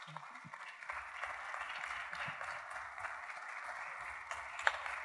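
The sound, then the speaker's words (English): Applause from an audience welcoming a minister to the stage at a religious gathering: dense, steady clapping that holds at an even level for about five seconds, with no clear talk over it. “I want to welcome him tonight. Give him a hand as he comes.”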